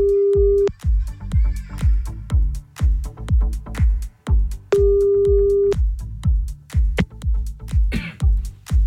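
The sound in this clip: A phone's ringback tone sounds while a caller redials someone who hung up. Two steady, mid-pitched tone bursts, each about a second long, are separated by a pause, with loud rhythmic music playing throughout.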